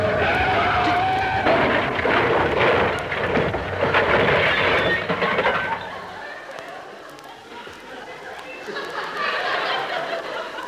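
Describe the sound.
A car braking hard and skidding, with loud, dense tyre and road noise for about six seconds, followed by a quieter rumble that lingers to the end.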